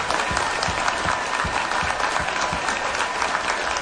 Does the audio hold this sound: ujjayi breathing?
no